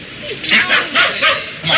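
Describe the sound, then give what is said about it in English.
A dog barking in a few sharp, yapping bursts, each short and mid-pitched, with brief gaps between them. “Stop barking.”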